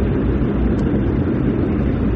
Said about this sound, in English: You can hear the tremendous roar of the Rolls-Royce Olympus engines zooming down the runway.